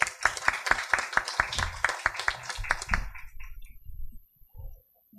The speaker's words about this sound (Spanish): a quien recibimos también con un cordial y caluroso aplauso